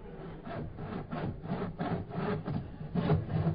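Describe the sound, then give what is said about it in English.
Hand saw cutting into a wooden safe in a cellar, with many rhythmic rasping back-and-forth strokes that are fairly quiet and steady. “Turn the volume on that saw down.”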